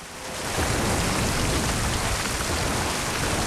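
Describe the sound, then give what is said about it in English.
Heavy rain falling in sheets on a house roof at night. A dense, loud hiss swells in over the first half second, then holds even and unbroken to the end, with no voices. “Rain falls in sheets on the roof of the Bell's house.”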